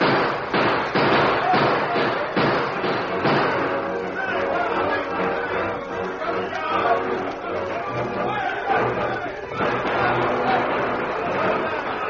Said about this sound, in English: For 5 long minutes, the Lone Ranger and Lou held the innocents at bay. The two men's concentrated fire made the outlaws dismount and take cover.